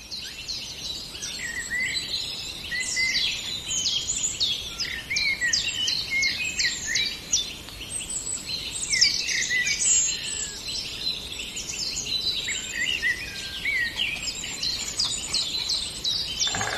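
A breeding pair of birds sings with many quick, high-pitched chirps and trills. The calls run on steadily for the whole stretch, with no pauses and no talking.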